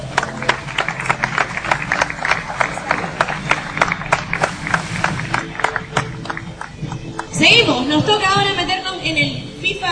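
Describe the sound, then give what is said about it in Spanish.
Audience applause for a prize winner at a video game competition's award ceremony: steady, dense clapping from many hands runs throughout, then louder voices rise over the clapping near the end. “Muy felicidades, ahí te se entrega el premio. Un fuerte aplauso, por favor.”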